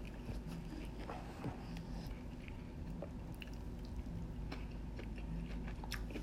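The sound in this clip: Biting into breaded fried avocado with sauce, followed by chewing: faint, soft crunches and moist squishing clicks scattered over a quiet, steady background.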